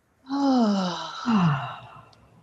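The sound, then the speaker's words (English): A deep breath released during a guided breathing exercise, let out as a long voiced sigh in two swells. Each swell falls in pitch, and the second is shorter, fading into soft breathy quiet. “Taking another deep inhaled breath. And release.”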